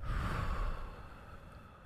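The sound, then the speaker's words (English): Deep breathing during a guided relaxation exercise: a person draws a long breath in and lets it out, a soft, steady, airy rush lasting about two seconds, fairly faint with no talking. “Ready? Okay, breathe in. Out.”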